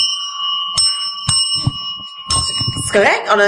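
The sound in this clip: Two bells ringing with bright, sustained metallic tones that linger throughout, struck again a few times, while people talk over them.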